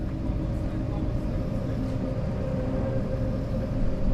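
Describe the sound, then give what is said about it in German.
The expedition ship Origo pushing through drift ice at a fjord entrance in light snowfall: a continuous, even, low rumbling drone with a broad wash of noise, steady in loudness throughout. “Am nächsten Morgen arbeitet sich die Origo am Eingang des Magdalenefjords bei leichtem Schneefall durch Treibeis.”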